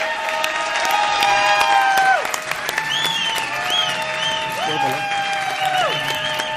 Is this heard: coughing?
no